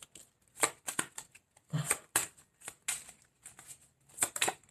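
Tarot cards are shuffled by hand in many quick, soft riffling bursts separated by short pauses, the papery flutters fairly faint and heard alone without talk.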